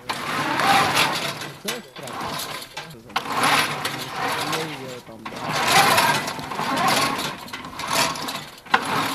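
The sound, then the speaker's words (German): Metallic, mechanical whirring and rattling from a remote-controlled, tracked military robot of solid steel, with cameras and a machine gun mounted on top, as it drives back and forth. The dense, grinding noise runs continuously and swells and dips in loudness. “So hört sich das an, wenn der Droid da hin und her fährt.”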